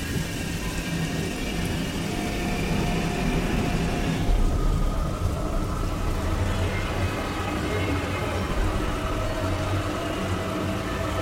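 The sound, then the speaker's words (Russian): Steady pouring rain from a film scene, a loud, continuous dense hiss of falling water that swells slightly partway through and holds without pause to the end. “Льет дождь.”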